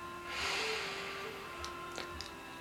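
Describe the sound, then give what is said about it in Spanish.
Slow inhaled breath during a guided breathing exercise, a soft airy rush lasting about half a second, fairly faint, followed by a few small clicks. “Inhala”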